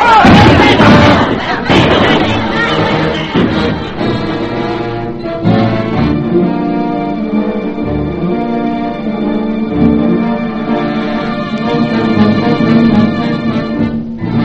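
Gunfire and a roaring crowd as soldiers fire on petitioners in the Red Sunday massacre in St. Petersburg, a dense, continuous din with sharp shots at the start.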